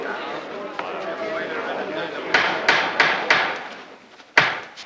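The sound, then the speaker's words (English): Sharp wooden knocks of a judge's gavel on the bench in a courtroom, a few irregularly spaced raps heard over a steady murmur of voices and room noise. “Judge Taylor sets down his gavel and glowers at the court.”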